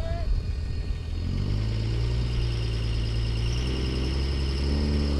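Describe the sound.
A diesel truck engine spools up before a tight drag launch in a competition, a loud, steady low drone whose pitch steps higher partway through, with a faint whine above it.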